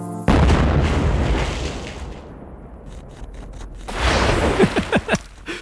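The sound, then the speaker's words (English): Cartoon explosion of a backyard swimming pool: a sudden loud blast with a long rumbling decay, then a second surge of noise ending in several sharp, quick pops. “So yes, Carl's pool just exploded. I'll play some of that sound effect”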